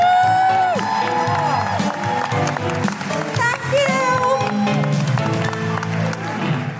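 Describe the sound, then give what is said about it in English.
An audience gives loud, sustained applause and cheering at a live show as the final act is welcomed back, a continuous wash of clapping with whoops. “Before we bring them on, a huge round of applause for Naomi Evans, Lucy Cooke, Felicity Ward. And please welcome back our final act, it's Jess Robinson.”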